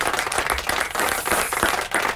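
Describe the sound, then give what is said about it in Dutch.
An audience applauds with dense, continuous clapping that stays loud and even for the whole short stretch, with no voices standing out. “ik begrijp dat applaus”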